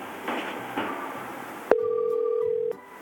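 A phone call to an unfamiliar number connects: a sharp click starts a steady electronic ring tone that holds for about a second, then another click cuts it off, after faint background noise.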